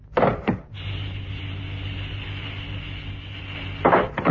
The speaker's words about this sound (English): Pressure maximum. Hatch opening.